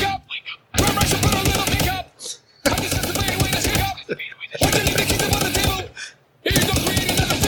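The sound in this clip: Automatic gunfire from a shooter burning through sponsor-gifted ammunition, firing four long rapid bursts separated by short pauses, each a dense, loud crackle of shots.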